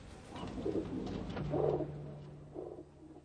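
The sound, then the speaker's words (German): City pigeons coo in a few soft, low, throaty phrases over a faint background hum, without any voices. “Das hat die Tauben aber nicht sehr beeindruckt. Sie sind schmutzige Großstadttauben geblieben.”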